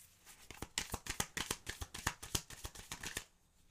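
Lenormand cards being shuffled by hand: many crisp, rapid slapping riffles in an uneven, steady rhythm, loud and alone, trailing off into quiet at the end.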